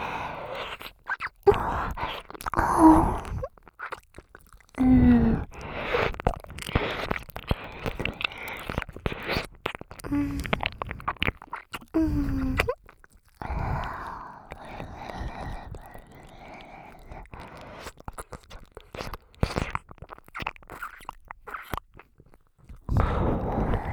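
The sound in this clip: ASMR ear-eating mouth sounds: wet chewing, biting and crunching come in irregular bursts of many clicks and smacks, with soft breaths and brief quiet gaps between.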